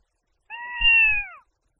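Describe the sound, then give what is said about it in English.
A cat meows once, a clear, fairly high-pitched call lasting about a second that bends slightly downward at its end, with a brief low rumble under its middle. “我听到猫叫啊”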